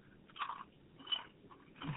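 Faint crunching of light, ridged Popchips Cheddar & Sour Cream chips, with a few short, crisp bites spaced apart in otherwise quiet surroundings.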